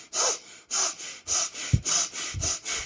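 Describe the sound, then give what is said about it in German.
Rapid breathing in and out through the nose: quick, forceful, hissing strokes in a steady, even rhythm. Several breaths follow each other with only brief gaps, and there is no talking. “Dann atme schnell durch die Nase, dreimal ein und aus. Also so.”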